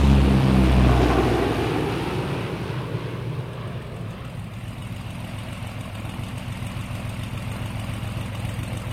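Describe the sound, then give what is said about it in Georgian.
Engine drone of a Chilean mail plane, a steady low rumble with a dense hum that is loudest in the first second, then settles into an even, continuous sound with no voices. “აგერიზიც, ჩილეს საფოსტო თვითმფრინავი.”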